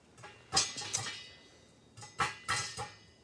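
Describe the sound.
Popcorn popping in a pan with butter, heard as sharp, bright pops in two irregular clusters separated by a short pause.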